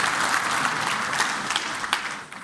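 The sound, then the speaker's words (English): Audience members applaud themselves, a steady wash of many clapping hands that holds at an even level and then thins and tapers toward the end. “Now sit down, that's good for audience participation. Good job, give yourself a hand.”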